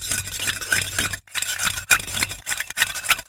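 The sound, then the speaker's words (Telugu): A spoon stirs a solution in a vessel while it is heated to dissolve it: a steady run of scraping, clinking strokes, fairly loud, broken by two brief pauses. “ఇప్పుడు కొద్దిగా వేడి చేయమ్మా. వేడి చేస్తూ కలుపు.”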